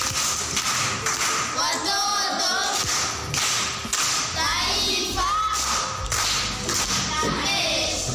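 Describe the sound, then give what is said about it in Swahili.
Clapping for a primary school pupil after a recitation, heavy percussive claps coming in bursts with voices mixed in among them. “Makofi kwa Mwendwa.”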